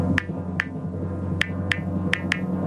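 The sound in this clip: Typing on an iPhone keyboard produces six sharp, light clicks spaced irregularly, some in quick pairs, over a faint low hum.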